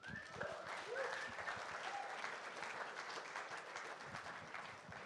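A church audience applauds as a man comes up onto the stage, with steady, dense clapping throughout and a few whoops early on.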